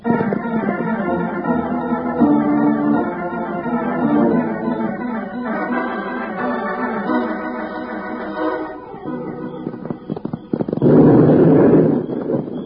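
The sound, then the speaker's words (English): A deep explosive blast goes off up on a hill at night, bursting out as one loud, rumbling boom near the end after a long stretch of orchestral music. “Bill, there goes another blast. That makes four. Yeah, Jingles. They're coming from up on that hill ahead of us. I don't care where they're coming from. It don't make sense for anybody to be out blasting at night like this.”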